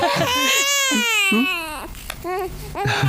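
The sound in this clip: A newborn baby boy cries loudly just after birth: a long, strained wail that slides downward in pitch, then breaks into shorter, choppier sobs.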